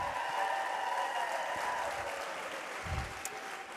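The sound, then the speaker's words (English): Audience applause at a church worship service, a dense steady clapping that holds for several seconds and eases slightly toward the end. “Can we just give her a hand one more time?”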